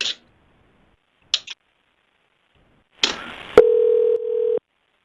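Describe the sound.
A single steady telephone ringing tone, about one second long, on an outgoing call to a hotel, preceded by a few short clicks and a burst of line noise.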